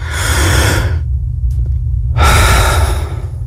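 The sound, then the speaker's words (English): A deep breath in and a long exhale during a doctor's examination: two loud, airy breath sounds separated by a short silent pause. “Take another deep breath and exhale.”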